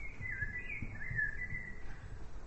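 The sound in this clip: Faint birdsong: a thin, wavering whistle-like call drifts in a quiet, calm setting, holding steady before trailing off.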